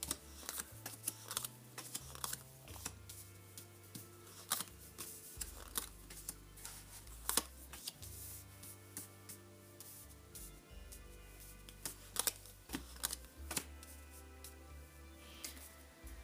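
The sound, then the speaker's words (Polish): Tarot cards are laid out all at once on a table: many quick, light taps and slaps of card on surface in an irregular run, over a low steady background. “rozkładam wszystkie karty od razu.”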